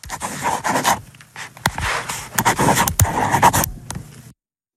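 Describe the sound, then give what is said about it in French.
Pen scratching across paper while writing a signature, a run of short, dry, rough strokes with brief pauses between them, fairly loud and heard alone without talk. “c'était le bruit d'un stylo sur une feuille”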